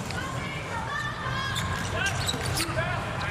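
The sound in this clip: A volleyball serve thumps as the ball is struck during a match involving the US team, heard under a roaring crowd and voices talking over the play.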